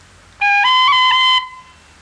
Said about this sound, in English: In the second bar, there is a phrase G, B, followed by a B roll, played like this.